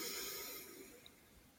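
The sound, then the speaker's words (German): A soft, breathy exhale through slightly parted lips during a guided breathing exercise: a gentle hiss that fades away over about half a second, then near silence. “Und durch die leicht geöffneten Lippen gerne auch mit einem kleinen Geräusch ausatmen.”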